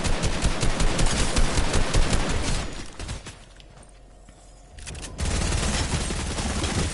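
Rapid automatic machine-gun fire in a video game rattles in a long, loud burst, fades into a quieter lull, then resumes in a second sustained burst.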